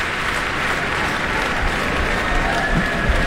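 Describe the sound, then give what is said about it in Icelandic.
A concert hall audience applauds a conductor as she walks on stage, the orchestra joining in: a thick, continuous roar of clapping, steady and loud from start to finish. “henni fagnað bæði á sviðinu og út í sal”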